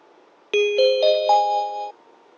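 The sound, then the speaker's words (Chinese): Inside a light-rail tram on the Beijing Xijiao line, a clear electronic chime plays four bell-like tones that step upward in pitch. The tones ring together for just over a second over a faint background hum. “欢迎乘坐北京有轨电车西郊线，本次列车开往香山方向。”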